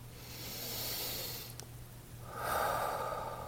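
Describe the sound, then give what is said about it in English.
A slow, deep breath, heard as two soft, breathy rushes of air in an otherwise quiet space. “Take a nice deep breath.”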